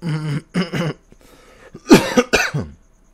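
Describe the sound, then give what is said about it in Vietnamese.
Several harsh coughs from a person with a slight cough come in two bursts separated by a short pause, the second burst louder and rougher. “Hôm nay mình hơi ho một chút nhưng các bạn thông cảm nha.”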